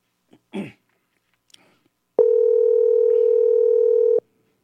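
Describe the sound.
An outgoing telephone call's ringing tone: one steady, mid-pitched electronic tone sustained for about two seconds, preceded by a brief throat clearing and a faint rustle.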